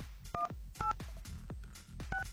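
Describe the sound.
Telephone keypad tones as a number is dialed on a phone: a few short dual-pitched beeps with soft button clicks between them, heard alone without talk.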